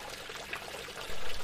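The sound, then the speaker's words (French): Water trickles steadily from a fountain set in the middle of a village's main street, a soft, even splashing stream with a low rumble swelling briefly near the end. “Dans la grande rue, une fontaine.”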